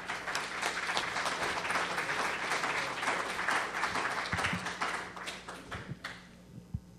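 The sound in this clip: An audience applauds to welcome a speaker at a conference: dense, sustained clapping that holds steady for several seconds, then thins out and fades to a few scattered claps.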